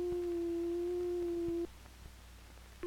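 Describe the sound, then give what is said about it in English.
Pure sine wave from an electronic oscillator: a steady, smooth tone at one constant pitch that holds for about a second and a half, cuts off abruptly, then returns briefly right at the end. “These oscillators produce sound electronically. Each oscillator produces a different kind of sound with a different wave form. This is a sine wave.”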